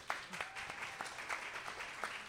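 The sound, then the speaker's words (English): Audience applause at a sponsored evening event with a bar: steady, faint clapping from many hands that keeps a continuous patter throughout. “let's do a quick round of applause first.”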